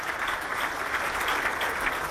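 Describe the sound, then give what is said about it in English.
A studio audience applauds: dense, continuous clapping from many hands, steady and full throughout, with no clear voices over it. “Jeez, that's a lot of people you've got in the studio applauding there, mate. Studio full of people clapping you all the way.”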